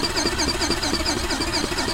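A thrusting toy's motor runs alone with a steady, fairly loud mechanical hum and a rapid, regular pulsing beat throughout.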